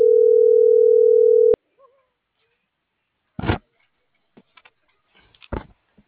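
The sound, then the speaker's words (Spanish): A steady telephone dial tone holds at one pitch for about a second and a half and then cuts off abruptly. A few scattered soft clicks and knocks follow in near silence. “Ya le estoy marcando a ver si me contesta.”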